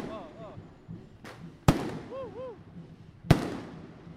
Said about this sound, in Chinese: 像这种烟火啊，它如果没有爆炸的话就很危险